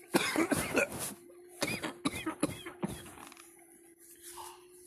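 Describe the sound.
Harsh coughing from someone whose coffee went down the wrong way, in a few loud bursts of rapid coughs with short gaps between them, then quiet.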